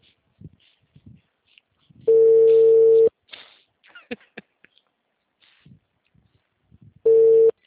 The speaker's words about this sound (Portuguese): Tá chamando.